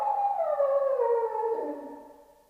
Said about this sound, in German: Der Hund? Die Ziehharmonika macht ihn verrückt. Nein. Sie heulen heute schon den ganzen Tag.